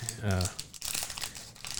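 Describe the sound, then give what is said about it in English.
A baseball trading card pack is ripped open, with crisp crinkling and tearing of the wrapper that follows a brief voice. “Here's my pack. Let's go ahead and rip it open here.”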